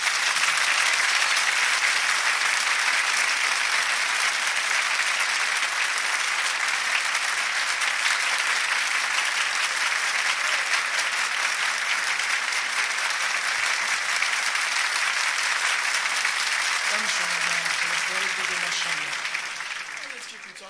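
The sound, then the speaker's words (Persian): Sustained applause from an audience at a religious gathering, a dense, steady clapping that holds for about twenty seconds before tapering off at the end, with a few voices surfacing near its close. “یک کف قشنگ بزن”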